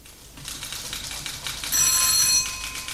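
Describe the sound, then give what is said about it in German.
A telephone bell shrills in a shipping line's New York office, one bright burst of ringing lasting about half a second over a steady, rapid mechanical clatter. “Seit den frühen Morgenstunden schrillen im Büro des norddeutschen Lloyd in New York unablässig die Telefone.”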